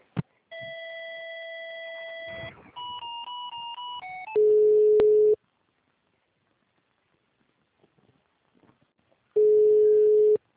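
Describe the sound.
Telephone tones play while a call is transferred. Two stretches of steady electronic beeping tones come first, then two loud, steady ring tones several seconds apart, with near silence between them.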